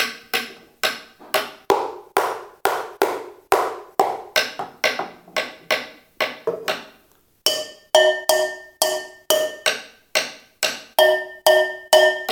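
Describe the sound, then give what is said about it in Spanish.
Wooden ladle used as a drumstick, striking loudly in a long run of sharp, regular hits. The later strikes ring with clear, sustained pitched tones. “¿Saben qué tengo como palito? Un cucharón de madera.”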